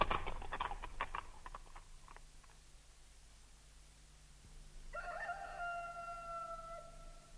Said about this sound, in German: Hörst du den Hahn krähen